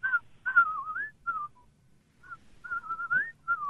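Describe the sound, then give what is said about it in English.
A whistled imitation of the whippoorwill bird call: a few clear, fairly high whistled phrases, some dipping and then slurring upward at the end, with brief pauses between them. “And the other one that I've always heard called a whippoorwill, I can't imitate as well, but it does something like...”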